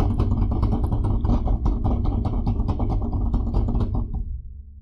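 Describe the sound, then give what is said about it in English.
A dense, loud drum roll of rapid continuous hits plays before a spin in a would-you-rather game and cuts off shortly before the end. “If we get a drum roll, please.”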